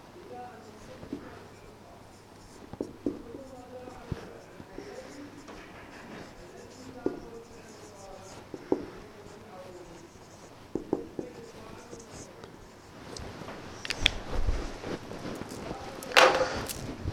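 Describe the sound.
Pen or chalk writing during an Arabic grammar lesson, with scratchy strokes coming in short bursts under a teacher's ongoing talk, growing busier and louder near the end.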